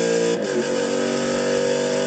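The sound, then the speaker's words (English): A Chevrolet Corvette engine accelerating on a race track, heard as a loud, steady droning roar with strong harmonic tones that run unbroken through the whole clip. “Gotta really love the sound of that Corvette. It hits you where it hurts.”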